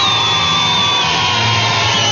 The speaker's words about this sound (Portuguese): Que Deus abençoe todos os médicos veterinários que estão ouvindo a gente, todos aqueles que cuidam dos nossos animaizinhos, é? Deus abençoe. Palmas para eles de novo.